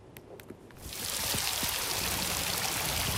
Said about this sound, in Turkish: Sağanak yağış hayatı felç etti. Yollar göle döndü.